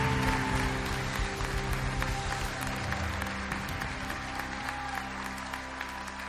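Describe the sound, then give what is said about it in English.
Applause from a church audience welcoming a guest speaker to the stage; continuous, steady clapping that starts strong and tapers gently over several seconds. “Let's put our hands together and give a huge welcome to our friend, Mr. Reggie Dabbs, as he comes to show.”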